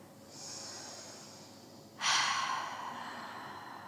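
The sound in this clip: Deep breathing in a guided relaxation exercise with hands on the heart: a long, soft inhale followed by a stronger, breathy exhale that slowly fades, quiet and with no talk.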